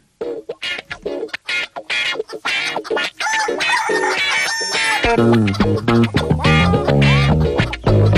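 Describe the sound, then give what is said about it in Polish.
Rooster crowing and clucking in a choppy run of calls. Partway through, music with a heavy bass line comes in and carries on to the end. “niech kogut teraz zapieje”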